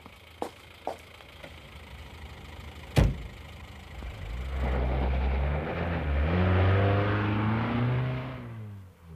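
A car drives off: a couple of small clicks and a sharp thud like a door shutting, then the engine starts and revs, its pitch climbing as it accelerates before the sound drops away at the end.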